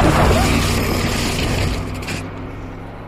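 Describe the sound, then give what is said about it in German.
A car speeds down a steep road, a loud broad roaring rush that gradually fades as the vehicle passes. “Im Gegenteil, er beschleunigt. Das bei dem steilen Gelände. So ein Idiot. Pass auf, der fährt uns glatt über den Haufen.”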